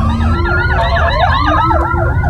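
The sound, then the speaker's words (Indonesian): An ambulance siren wails in a long evening traffic queue on a congested city road, its loud tone sweeping up and down repeatedly over a steady low rumble of traffic. “Aduh, ada ambulan lagi.”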